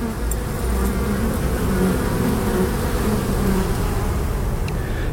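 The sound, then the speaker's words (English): Honeybees buzz at a school beekeeping range in a dense, continuous drone of many insects that holds steady throughout, with no voices. “Now we are the beekeeping range of our school. Student can learn the beekeeping.”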